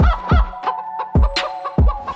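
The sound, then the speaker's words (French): Honking, clucking fowl calls from chickens come in a few sharp harmonic bursts over deep, thumping low beats, with no talk. “Et nos poules font glou glou glou.”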